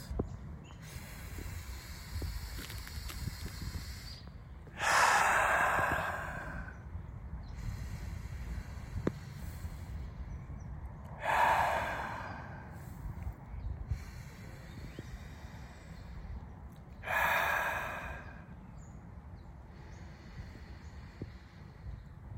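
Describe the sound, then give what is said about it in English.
Slow, deliberate breathing: three soft, breathy rushes of air are spaced evenly several seconds apart, each swelling and fading over a low, constant background noise, with no speech. “Let's just stop, pause, and breathe for the next 20 seconds.”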